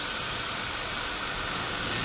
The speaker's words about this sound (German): Jetzt den Bohrer vorsichtig ans Werkstück heranführen. Den Vorschubhebel also nach unten drücken. Und anbohren.